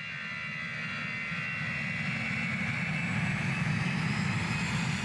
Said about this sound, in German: An einem kalten Winternachmittag fliegt Kretschmann nach Berlin.